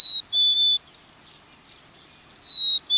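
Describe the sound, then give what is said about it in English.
House wren, black-capped chickadee and red-breasted nuthatch calls: a few high, clear whistled notes, two at the start and two at the end, separated by a quiet stretch of faint chatter. “We're hearing a house wren, a black-capped chickadee,”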